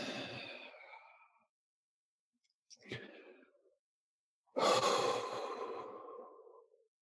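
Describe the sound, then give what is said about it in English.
Deep breaths taken during a guided breath meditation: a long airy exhale, a shorter breath after a pause, then a fuller, louder sigh-like exhale that trails off, with silence between them. “So just invite us to maybe take a couple of deep breaths.”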